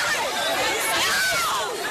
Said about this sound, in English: Look at this crush of shoppers in a Chattanooga Victoria's Secret pink store.